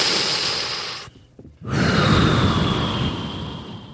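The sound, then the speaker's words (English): A deep, slow breath taken by a group: two long airy rushes of breath with a short quiet pause between them, the second fuller and louder and trailing off gradually. “Let's just seriously take a deep breath.”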